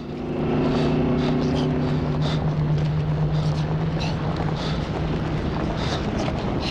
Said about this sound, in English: The truck looms nearer.